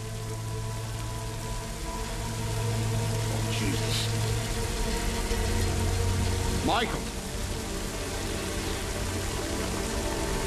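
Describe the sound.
Steady rain falls outdoors near a building and a gate, giving a continuous, even hiss at moderate loudness with no distinct drops standing out.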